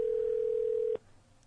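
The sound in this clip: A telephone call tone sounds as a single steady, mid-pitched hum for about a second while someone is being called, then cuts off abruptly, leaving faint background hiss.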